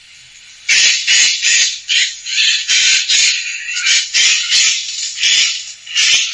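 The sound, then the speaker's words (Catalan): A Eurasian jay gives its alarm call in woodland: a quick series of many harsh, rasping screeches, each a short, loud burst with brief gaps between them. “escolteu. I segur que l'heu sentit, però és el gaig.”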